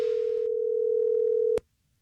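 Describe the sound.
A telephone dial tone before a prank call: a steady, unbroken mid-pitched tone that holds for about a second and a half, then cuts off abruptly with a click, leaving near silence.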